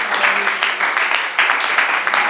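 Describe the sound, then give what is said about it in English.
An audience at a worship service claps its hands, making a dense, steady, moderately loud wash of clapping with no pauses. “Let's clap our hands up to the Lord.”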